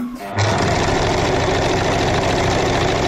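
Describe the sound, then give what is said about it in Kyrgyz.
A small home sewing machine, used for five years for household sewing, starts after a brief quiet moment. It then runs continuously with a loud, rapid, steady mechanical whir and rattle. “Бирок оюнчук машинкам көп нерсеге жарайт, көп иш кылат. 5 жылдан бери ушул менен үйдөгү өзүмдүн майда чуйдаарымды тигип алам.”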